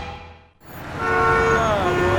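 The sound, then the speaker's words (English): Traffic roars on a busy Nashville city street, a low steady rumble of vehicles that briefly dips before a long horn-like tone rises over it. “Do you hear that? That's the sound of a city that's back in business. The sound of Nashville coming back to life.”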